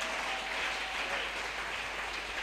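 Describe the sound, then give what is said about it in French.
Church audience applauding, a continuous, even wash of many hands clapping at moderate level, unbroken from start to end, with a low hum beneath. “Est-ce qu'on peut acclamer très bien? Merci. Tunaweza kuchapa kofi mzuri.”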